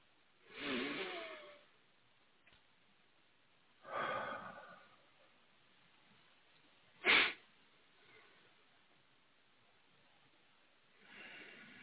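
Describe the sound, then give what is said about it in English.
Slow breathing during a church service: a few soft, drawn-out breaths are spaced several seconds apart, faint against near silence, with one shorter, sharper intake in the middle. “At this time, I invite you to join me in taking 3 slow breaths.”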